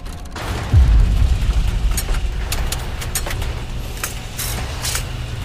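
Cannon fire strikes a ship's hull in a deep, loud boom that rolls into a long low rumble, with scattered sharp cracks following.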